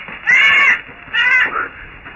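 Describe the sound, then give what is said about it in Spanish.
Bats screech while swarming around a castle in a radio drama, in two harsh, raspy calls of similar length with a brief gap between them, fairly loud against a quiet background. “Algo chillaba y volaba en torno al sector. Cuerpos pequeños, negruzcos y pegajosos aleteaban junto a su cara. ¡Murciélagos!”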